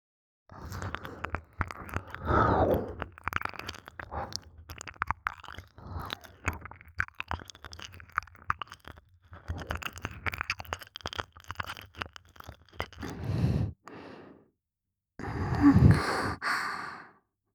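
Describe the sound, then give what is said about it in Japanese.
Wet ear-licking ASMR mouth sounds, many soft slurps, smacks and breaths in a quiet continuous stream, with a brief pause near the end before a final louder burst. “それじゃ、またお耳、こっちをペロペロしていきますね。”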